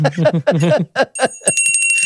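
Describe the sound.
A bell is rung once and leaves a bright, high, sustained ring that fades slowly, coming right after a stretch of people talking.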